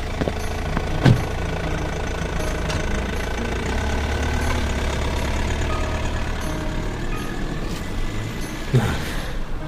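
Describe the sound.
Car engine rumbling low and steady as the vehicle drives away, a continuous throaty drone at an even level with a couple of brief knocks breaking through.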